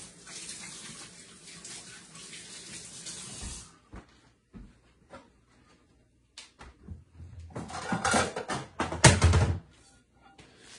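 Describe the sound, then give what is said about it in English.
Running tap water while hands are washed: a steady hiss of flowing water stops, a few light knocks follow, then a louder burst of splashing and rinsing. “Let me wash my hands, actually.”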